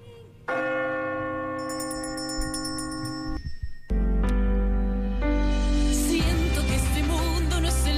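Bell chime strikes of a clock marking a count, with two clear, loud strokes whose rich metallic overtones ring on steadily before more bright tones pile up toward the end.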